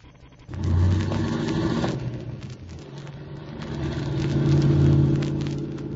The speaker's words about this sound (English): Slide over. I'll drive.